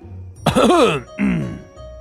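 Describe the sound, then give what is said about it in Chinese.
A man gives a deliberate, throat-clearing cough: a loud, rough voiced burst followed by a shorter second one, heard alone. “只听包拯咳嗽了一声”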